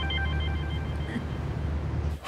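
A telephone rings with a steady electronic tone, fairly loud over a low background hum, with a short break in the middle before it rings on and stops near the end.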